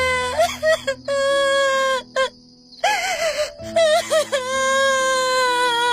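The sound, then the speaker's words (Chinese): Loud, drawn-out wailing of a person sobbing and crying, long sustained moaning cries broken by short gaps and breaths, harsh and strained throughout. “呜呜地哭起来，越哭声音越大”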